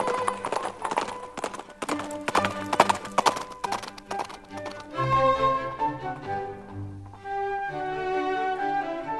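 Horse hooves clip-clopping at a walk, trot and run, a rapid run of sharp hoofbeats in the first half, followed by sustained tonal musical notes.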